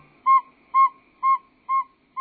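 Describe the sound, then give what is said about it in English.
A northern saw-whet owl calls in an even series of clear, whistled toots at about two per second, five notes in all with the last one cut short, and no other sound. “Northern saw-whet owls reveal we have much to learn about the world of birds.”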